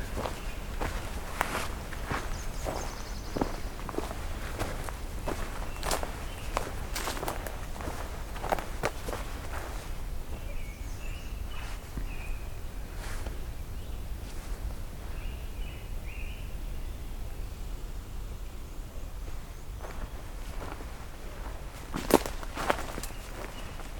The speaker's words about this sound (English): I'll walk around the loop here. See what we get.